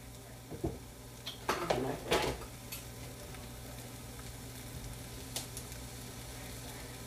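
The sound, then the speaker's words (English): Butter and eggs cooking in a pot, a faint steady sizzle under a few scraping, clinking stirs of a utensil against the pot, loudest early on before settling into quieter frying. “This big, like, chunk of butter to put in this pot to finish these eggs.”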